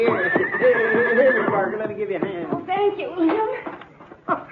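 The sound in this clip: A horse neighs and whinnies as its rider dismounts, loud, shaky, repeated calls with soft hoof shuffling and people talking over it.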